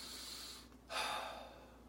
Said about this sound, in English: right now, you can hear, I'm breathing deeply.